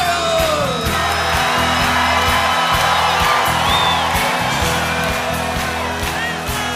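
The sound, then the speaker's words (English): A church audience claps and shouts during worship: loud yells and whoops over rhythmic, driving hand claps, dense and unbroken throughout. “Just clap your hands together.”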